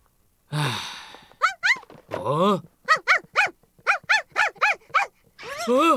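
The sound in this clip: Barks and yelps from a cartoon dog in a Doraemon animated film with Hakka dubbing: many short, high, tonal bursts in a quick run, with a few longer whining cries before and after, loud and alone.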